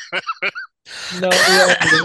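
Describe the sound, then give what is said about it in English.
A cough from someone bothered by allergies: a couple of short voiced bursts, a brief pause, then a longer, rough, noisy cough. “So if you hear me kind of coughing and snarfing and stuff.”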